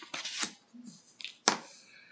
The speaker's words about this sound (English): And shuffled the cards and laid them out, and our spread is as follows.